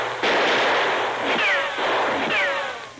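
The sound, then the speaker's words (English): A few warning gunshots fired toward a man creeping over the edge of an arroyo near a camp: sharp, loud cracks, two of them trailed by a thin, falling ricochet-like whine, with no voices. “he fired a few warning shots in the man's direction”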